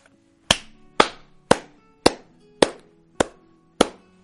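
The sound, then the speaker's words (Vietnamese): Slow hand clapping: seven sharp, evenly spaced claps, each with a short ringing decay, with no voices around them. “Một hồi tiếng vỗ tay vang lên”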